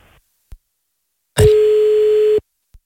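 A telephone ringback tone on an outgoing call: one steady, unbroken mid-pitched tone lasting about a second, loud and alone, with faint clicks before and after.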